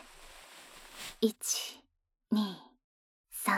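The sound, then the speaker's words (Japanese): Slow, deep breath in during a guided stretching exercise with the chest opened and the back arched, a long soft airy inhalation followed by brief, quiet voice sounds. “ゆっくり深呼吸。吸って。”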